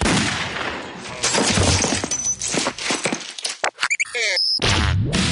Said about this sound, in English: 9mm solution. Sometimes it is the solution. Gun to chin, pull trigger.